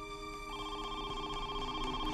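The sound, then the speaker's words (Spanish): A telephone rings with a steady, continuous electronic tone that holds at a low, even level throughout, with no voices. “Unas horas luego de que los agentes se fueran, los Atwood recibieron una llamada.”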